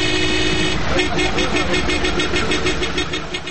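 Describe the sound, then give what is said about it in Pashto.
Car horns honk repeatedly over a steady rumble of engine noise, a run of many short, bright, pulsing tones that sit loud within dense traffic sound. “د موټرو لوړ هارنونه په ټولو خلکو په تیر بیا په ناروغه کسانو ډېرې بدې اغېزې کوي”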